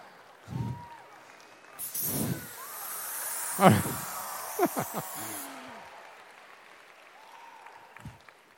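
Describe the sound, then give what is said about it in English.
A smoke machine releases smoke with a broad, steady hiss lasting a few seconds, surrounded by quieter scattered sounds. “I want to have a smoke machine just all the time now, just so I can just walk around smoke machine.”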